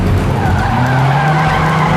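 Tires skid and squeal loudly as a taxi is driven fast: a continuous, harsh screech over a heavy engine roar, sustained at full volume for about two seconds.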